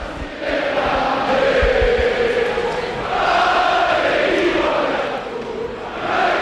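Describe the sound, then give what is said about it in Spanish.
Football crowd at Mendizorroza stadium in Vitoria celebrating a 1-0 victory: a loud, continuous roar of many voices, swelling and easing in waves of chanting. “Pues este es el sonido de la esperanza en Vitoria después de una victoria épica ante el Barça por”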